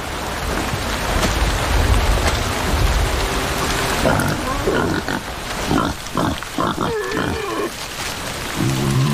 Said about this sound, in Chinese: 野猪有时会为争夺食物发生争执。雨下得更大了，